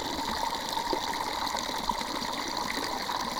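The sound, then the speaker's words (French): A strong water jet is captured with the microphone submerged in the water, producing a dense, steady hiss and churning rush with faint bubbling and a constant muffled tone throughout. “si là le micro il est dans l'eau. Ah, mais là, c'est bien. Après là c'est aussi plus fort, le jet d'eau est plus fort quand même.”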